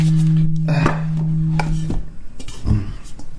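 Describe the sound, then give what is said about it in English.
Alchemy crystal singing bowls are handled and swapped: a sustained low ringing hum fades out, then a few light clinks and knocks follow as the bowls are moved. “Let me switch over here to a few other bowls.”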